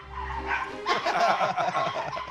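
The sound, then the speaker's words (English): Several dogs bark and yip excitedly, rushing to a door after a knock, with many sharp overlapping barks in a loud, continuous burst. “She's going to set them off with a door knock. Right, this will be interesting. The dogs all rush to the door.”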